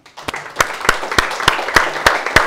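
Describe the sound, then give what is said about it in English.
Clapping from an audience at a gathering: about eight sharp, evenly spaced claps in a steady beat ride over a softer bed of scattered applause, fairly loud throughout. “Give a round of applause for the”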